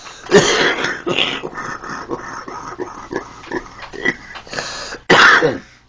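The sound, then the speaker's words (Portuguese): A man coughs over and over in a rough, rasping fit of short, throaty bursts, like hacking and throat clearing, with the loudest bout at the very end. “Em vez de deixar o cara tossir, não, tem que falar em cima, né? É pra destacar a tosse dele.”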